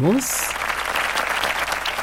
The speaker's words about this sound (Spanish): Comenzamos con esa bienvenida, con esos aplausos que los comparto con todos ustedes.